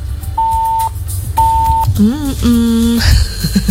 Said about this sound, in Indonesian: Kenapa tuh? Ada WhatsApp nih, kita bacain dulu ya.